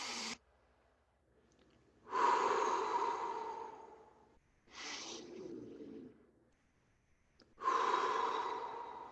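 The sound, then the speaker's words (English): Slow, deep breathing used to calm down, with three long, airy breaths of about two seconds each, loud and steady, heard alone with short pauses between them. “the way to do that is to breathe. And you can do that anywhere. All you have to do is stop and”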